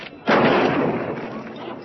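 A single loud gunshot bursts out after a brief quiet moment and trails off in a long, rumbling decay.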